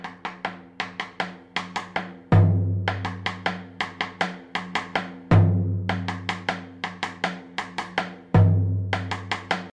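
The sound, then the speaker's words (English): Three deep booming hits on the drumhead of a cumbia drum stand out among many lighter, crisp strokes. The strokes repeat in a steady rhythmic pattern, each low hit ringing on briefly before the next taps. “The second hit is in the actual parch, and this is a low, very, very low frequency sound, and it sounds like this.”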